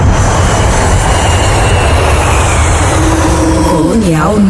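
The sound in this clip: Airplane taking off, as a sound effect: a loud, steady, broad engine roar that fills the whole clip without a break.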